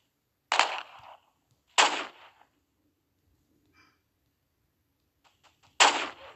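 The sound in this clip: Sniper rifle shots in a video game: three sharp, loud cracks, each with a brief tail. The first two come about a second apart, then after a quiet gap with faint small clicks, the third follows.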